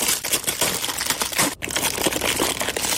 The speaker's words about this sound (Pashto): دلته ډیرای کسان د دغه ولاړو موټرو له شیشو څخه تور پلاستیک ناړوي.